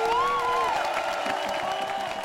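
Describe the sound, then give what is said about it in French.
Applause from an event crowd giving thanks to the caterers. A voice rises over the start, then broad clapping continues at a steady level. “Et on en profite, je pense, pour faire un énorme bravo aux méga cantines qui nous ont tout préparé.”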